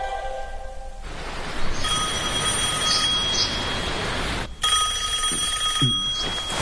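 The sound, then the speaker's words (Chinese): A telephone bell rings in a steady, bright, high-pitched trill, sounding in two long bursts separated by a brief break. No voices are heard. “妹妹，听电话。”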